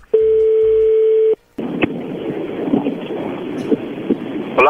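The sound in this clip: A telephone is dialed. A steady electronic tone lasts about a second, then after a brief gap comes a long stretch of loud, crackling line hiss with a few sharp clicks. No voices.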